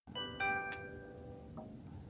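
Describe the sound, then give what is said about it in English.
A smart speaker sounds a doorbell chime for the front door: two clear, ringing tonal notes in quick succession that sustain and slowly fade, then a fainter short note near the end, with no talk. “Google Home. Yeah. Doorbell. Front door.”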